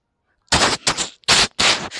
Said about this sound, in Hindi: Sir, उसको firing करना सही था ना हमारे लिए?